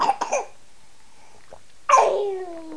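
Someone coughs and clears the throat in a few quick, short bursts. After a pause comes a longer, louder rasping voiced sound that fades out.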